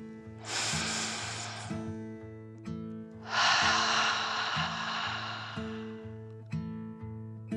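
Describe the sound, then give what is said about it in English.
A deep, slow breath is drawn in and then let out in a long, rushing exhale as part of a calming children's breathing exercise. It plays over soft, steady melodic music. “Then one more deep dragon breath in and out.”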